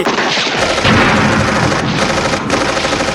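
Gunfire sound effect within a song, a loud, dense stream of rapid shots that runs almost without a break for the whole three seconds.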